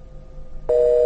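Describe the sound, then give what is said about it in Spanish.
A telephone tone sounds after a phone call with a football defender cuts off: a loud, steady electronic tone starts partway through and holds to the end, following quieter low background noise. “Se cortó. A ver si podemos tomar la comunicación nuevamente.”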